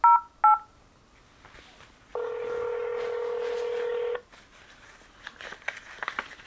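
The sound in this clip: Two short telephone keypad dialing beeps sound in quick succession. After a pause, a longer steady tone holds for about two seconds, followed by faint scattered rustling.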